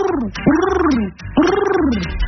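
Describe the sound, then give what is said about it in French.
A human voice imitating a pigeon cooing: two loud, throaty, warbling calls, each arching up and then sliding down in pitch, separated by a brief gap. “Pigeon, oiseau à la grise robe, dans l'enfer des villes, à mon regard tu te dérobes,”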